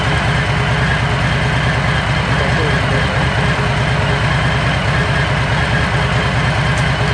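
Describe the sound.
A motorcycle engine runs loud and steady, with a deep, rapid, throbbing pulse that stays even for the whole stretch and has no pauses.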